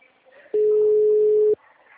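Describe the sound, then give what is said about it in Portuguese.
Telephone ringback tone on an outgoing call: one steady, mid-pitched beep lasting about a second, standing alone between stretches of faint background noise. “Oxe, pra quem que eu tô ligando?”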